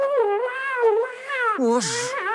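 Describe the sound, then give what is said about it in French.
A cat found hiding in a car's engine compartment meows in drawn-out, wavering cries that run almost without a break. The pitch bends up and down and then slides lower toward the end, loud and insistent. “Sacha, mon chat, allez, viens. Mais qu'est-ce que tu fais là?”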